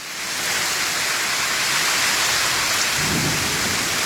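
Heavy rain with thunder makes a dense, steady hiss from start to finish, and a low rumble of thunder swells beneath it in the last second.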